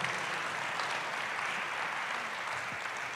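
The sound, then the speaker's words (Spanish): A church audience applauds during a sermon, a soft, even patter of many hands that continues steadily for a few seconds. “Dale un aplauso al Señor, dile: gracias, Señor, voy a terminar la carrera.”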